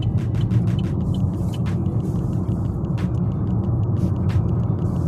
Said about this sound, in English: And you are also listening to me on the road. I'm driving.